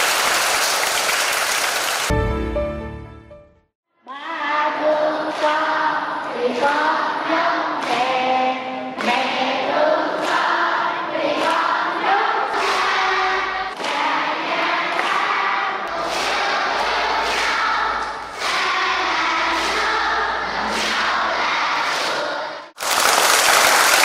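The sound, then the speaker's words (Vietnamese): At a Buddhist dharma talk, an audience gives a big, sustained round of applause that stays loud and dense for about twenty seconds, with a tonal sound running under the clapping. “Cho một tràng pháo tay thật lớn.”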